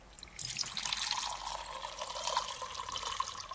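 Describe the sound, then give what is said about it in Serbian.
A small amount of water is poured into a larger glass, making a faint, steady trickling splash with a light ringing tone for about three seconds. “Prvo što ćemo uraditi, sipat ćemo malo vode u veću čašu”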